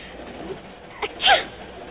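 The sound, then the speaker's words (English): A single small sneeze from a girl who is cold, a short catch of breath followed by a sharper burst. It is heard alone with no talk. “You wouldn't be sneezing if you weren't cold.”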